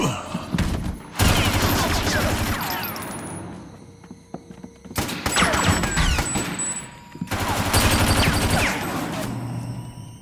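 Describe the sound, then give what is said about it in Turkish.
Machine gun fire comes in three long, loud bursts of rapid repeated shots, separated by quieter gaps. “Duyduğum makineli tüfek sesi mi Smith?”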